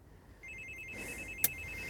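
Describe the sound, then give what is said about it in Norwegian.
A doorbell rings at an apartment entrance with a faint, steady electronic trilling tone about a second long that ends in a short, sharp click. “Glatt er det også. Vi skal ringe på nå. Skal vi se.”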